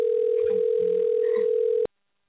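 A steady telephone dial tone hums while a number is being called. It holds one unbroken, even pitch for almost two seconds, then cuts off abruptly into silence.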